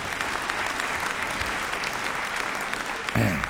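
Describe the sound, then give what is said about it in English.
An audience applauds for Jimmy Howie, a Dundee painter and dancer, at a song dedication: a continuous wash of clapping at steady strength, swelling slightly louder just before the end. “Yes, let's hear it for Jimmy Howie.”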